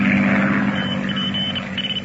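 Monoplane engine droning as the throttle is closed, a continuous low, rough hum with faint thin whining tones above it and no voices.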